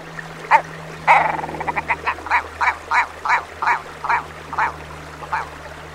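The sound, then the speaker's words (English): A bird call made up of a long series of gruff, repeated notes. A rapid stuttering burst slows into an evenly spaced, steady rhythm of calls over a faint, constant low hum. “I always find it really hard when you see a bird's call or song described in words, but the go back phrase really does make sense, and we'll listen to that now”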